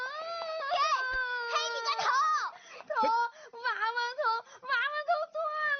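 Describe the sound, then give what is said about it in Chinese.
A young child crying: high, wavering wails and sobbing bursts that repeat over several seconds, with uneven loudness and short breaks between cries. “不哭啊，妈妈再给你做一个”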